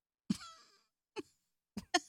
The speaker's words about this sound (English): That was a Toyota Corolla cough. It came deep from within.